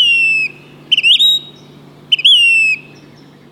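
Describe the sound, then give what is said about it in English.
Say's phoebe calling: a few clear, plaintive whistled calls. Each starts with short stuttering notes and runs into a longer drawn-out tone that slurs downward. The calls stand alone over a faint, steady low hum. “This month also brings phoebes. Eastern phoebes east of the Rockies. And Say's phoebes in the west.”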